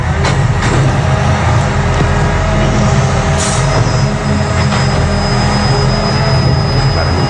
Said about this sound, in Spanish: Te diría que es de cartón, precisamente, o sea, es recogida de contenedor de cartón,